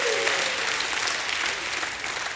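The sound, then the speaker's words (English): A church audience applauding, a dense, even wash of many hands clapping that holds at a steady loudness throughout. “Give his name a hand clap and a shout of praise.”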